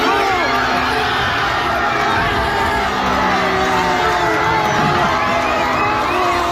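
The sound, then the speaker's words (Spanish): A crowd cheers in Salamanca's Plaza Mayor during Spain's 2–0 World Cup semi-final win over France. Loud, dense and continuous, with shouts and whoops rising from the roar throughout. “así vivía anoche el público congregado en la Plaza Mayor de Salamanca en España 2, Francia 0 de las semifinales del Mundial de Fútbol”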